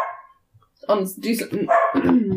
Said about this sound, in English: Dude! Doggo! Leave Zoe alone! Stop it! Leave her alone!